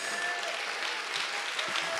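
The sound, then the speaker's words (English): A church audience claps hands in praise, a fairly faint, even wash of many hands that continues without pause. “Let's give God a hand clap of praise.”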